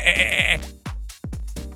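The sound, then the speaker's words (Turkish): Lambs bleat in highland pastures, starting with one long, strained cry and followed by several shorter, wavering bleats with brief gaps between them. “kuzular öttü.”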